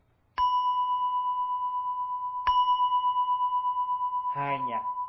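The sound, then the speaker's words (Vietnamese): A temple bell rings out for sutra chanting, struck twice about two seconds apart. Each strike blooms into a loud, sustained metallic hum that carries on without fading, and a voice briefly sounds near the end. “Thí dụ vậy, à, chuông tụng kinh nè.”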